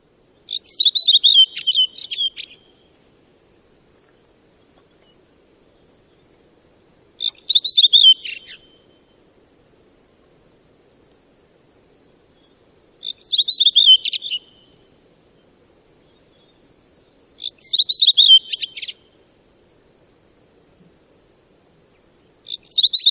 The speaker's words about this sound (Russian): Дрозд белобровик.